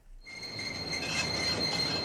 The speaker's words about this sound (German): Der Bahnhof in Fulda. Hier herrscht wie immer geschäftiges Treiben. Pendlerinnen und Pendler kommen an oder fahren weg.